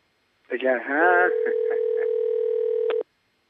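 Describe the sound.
International telephone ringing tone on a call-in line: a brief warbling, voice-like sound gives way to a steady mid-pitched tone. The tone holds for about two seconds with slight periodic dips, then cuts off abruptly.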